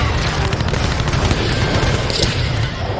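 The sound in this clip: Cannon fire in a battle: heavy, overlapping booms and blasts merge into a continuous, loud rumble.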